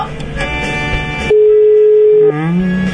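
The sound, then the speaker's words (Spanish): A telephone ringback tone sounds while a call is placed to Rosario: one loud, steady, even tone holds for about a second before dropping away. “A ver, a ver. Estamos llamando a Rosario.”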